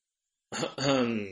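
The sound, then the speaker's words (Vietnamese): A light, stern throat-clearing cough: a short rasping catch, then a longer voiced clearing of the throat that fades out, with nothing else around it. “Triệu Địa khẽ ho nhẹ một tiếng nghiêm nghị”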